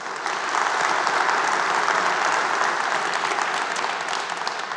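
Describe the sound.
Applause from a church audience on Pentecost Sunday welcoming online and television viewers: dense, steady clapping that begins abruptly and stays loud and even for about four and a half seconds.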